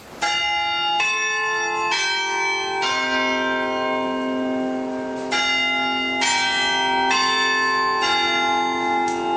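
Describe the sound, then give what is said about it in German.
Tower bells on the market square in Halle ring the Westminster chime: eight clear, resonant strikes in two phrases of four, each tone ringing on into the next, with no voices. “aber den Westminster-Schlag, den kennen Sie doch. Ja, so klingt's in Halle. Am Marktplatz vom Roten Turm. Da klingt es so schön.”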